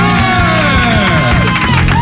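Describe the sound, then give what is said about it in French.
An audience gives loud applause and cheering for the reigning Miss France, a dense, continuous mass of clapping mixed with whoops and raised voices that holds strong from start to finish. “Applaudissements pour Miss France.”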